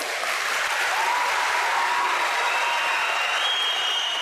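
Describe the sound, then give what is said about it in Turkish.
Sustained applause from a crowd cheering commandos at a 19 May celebration in a hall in Bolu. The clapping is dense, steady and loud throughout, with no voices standing out. “Komandolar dakikalarca alkışlandı.”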